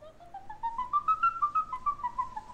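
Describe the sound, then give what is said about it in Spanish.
Bird-like whistling from an exotica music recording: a clear run of many short, chirping notes that climbs in pitch, then eases gently downward, with no voices. “Un pajarito.”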